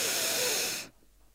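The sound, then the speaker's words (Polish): A single deep breath drawn in during a calming breathing exercise: a soft, airy hiss lasting under a second that stops abruptly, fairly quiet and alone. “Można na przykład zrobić jeden głęboki wdech,”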